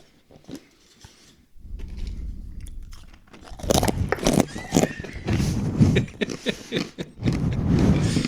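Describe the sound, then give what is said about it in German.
Someone bites and chews crunchy dried banana pieces taken from a jar: a quiet start, then many loud, crisp crunches and grinding chews in an uneven rhythm that keeps going to the end. “hier stehen getrocknete Banane im Glas, direkt griffbereit. Können wir aber jetzt während dem Podcast nicht, weil das macht dann so. Warte mal, ich probiere das mal.”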